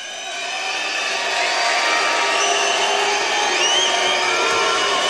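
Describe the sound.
Belgian crowd cheering at a basketball match during a free throw, a loud, dense, sustained roar with shrill whistles and shouts cutting through, building slightly at the start and holding steady throughout.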